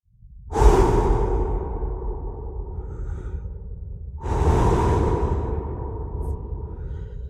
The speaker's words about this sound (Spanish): Cuando respiro profundo, Recuerdo que hay un equilibrio entre lo que doy y lo que recibo. Inhalo oxígeno.